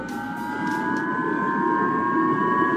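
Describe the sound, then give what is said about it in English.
Japanese civil defense warning sirens wail during a North Korean missile launch, a steady chord of sustained tones holding level over a constant wash of background noise, with no voices. “Japan's warning sirens were blaring when the North Korean missile was launched and again passed overhead of Japan.”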